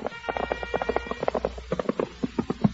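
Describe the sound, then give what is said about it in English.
Hoofbeats of a squad of soldiers riding up on horses: many quick, overlapping clopping steps in a steady, driving rhythm, moderately loud throughout. “Tall straightens up, wiping the sweat and blood from his brow as a squad of soldiers ride up.”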